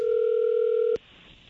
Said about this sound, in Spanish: no haga ruido, ahí se está marcando.